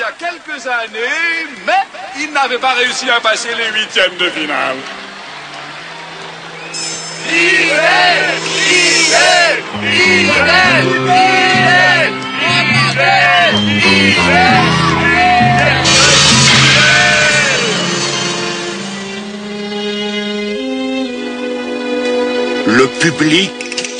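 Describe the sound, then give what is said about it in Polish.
A tournament audience chants a fighter's name in a dubbed animated series, with loud, continuous voiced shouting that rises and falls over the whole stretch. “Publiczność skanduje imię Widel.”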